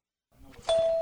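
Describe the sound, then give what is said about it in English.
Door chime of Hobbyland's red door, a hobby shop for model trains, RC cars and rockets in downtown Bloomington: after a soft rustle, a single clear tone rings out and holds steady. “That's the sound of the most famous red door in Bloomington Normal.”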